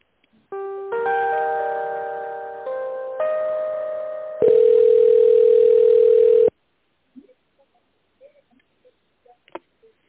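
Telephone line tones while a call is being transferred: a sustained buzzy tone that shifts pitch in several steps, then a louder steady tone that cuts off abruptly, followed by faint clicks and small noises.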